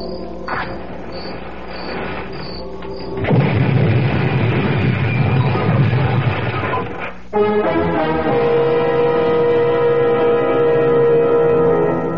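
A gas tank explodes after being set off with a match and gasoline. A loud rumbling roar bursts in suddenly and lasts a few seconds amid dramatic music, which carries on alone afterwards.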